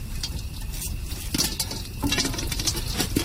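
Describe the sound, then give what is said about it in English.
Popcorn popping in a pot over a real fire: a dense, continuous patter of small crackles and pops, steady and fairly loud throughout, with faint metallic clatter mixed in. “Wow, popcorn on a real fire.”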